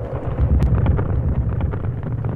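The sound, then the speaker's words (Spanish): Strong wind blowing hard and carrying dirt, a dense, steady roar with deep rumbling buffets and gusty surges throughout, with no voices. “Un viento muy fuerte comenzó a soplar, trayendo mucha tierra.”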